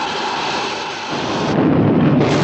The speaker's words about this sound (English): blasts off and shoots across the sky like a rocket